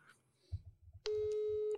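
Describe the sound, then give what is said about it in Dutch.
A telephone being dialed to call someone. Faint low thumps are followed by a single loud, steady electronic tone that holds for under a second, then stops. “Ik ga bellen.”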